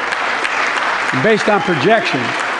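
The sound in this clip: Audience clapping during a presidential State of the Union address: steady, many-handed applause throughout, with a voice speaking over it through the middle.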